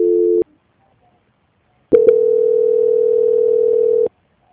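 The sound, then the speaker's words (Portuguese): Telephone line tones during a call transfer: a short steady tone, a pause of about a second and a half, then a couple of clicks and a long continuous tone lasting about two seconds before it cuts off. “Fica na linha que eu vou tentar te transferir para ver o que que acontece. Tá. Transferência.”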